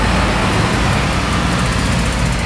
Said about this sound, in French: La première colonne arrive, les camions se garent sur le parking de la salle des sports.